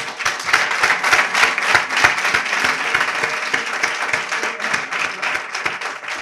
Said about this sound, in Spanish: Un aplauso para ellos, ¿eh?